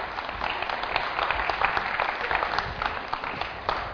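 Audience applause at a church service, welcoming two helpers to the stage: dense, even clapping that carries on steadily throughout, with no talk over it.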